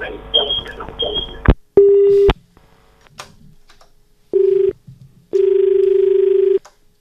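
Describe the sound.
Telephone line tones on a call coming into a farm radio phone-in: three steady buzzing beeps of uneven length, the last one the longest. Speech comes before the beeps.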